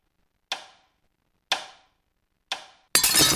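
Sound effect of a watch being smashed: three sharp, evenly spaced ticking knocks about a second apart, then a sudden loud crashing smash that carries on to the end.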